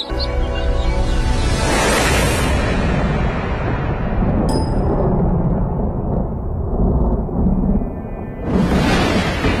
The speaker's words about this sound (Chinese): 安三娃家的收获季，被突如其来的雷雨打断。